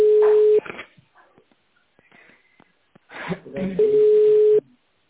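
Telephone line tone while a call is being placed: a steady mid-pitched tone at the start and another near the end, both overlaid with other sound, with a quieter gap between.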